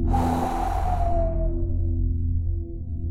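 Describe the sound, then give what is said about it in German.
Breathy blowing through hands cupped like a funnel in front of the mouth: a loud airy rush that swells at once and then slowly thins out, with a steady low tone underneath throughout. “Okay, Hände wie ein Trichter vor dem Mund. Einatmen. Und pusten.”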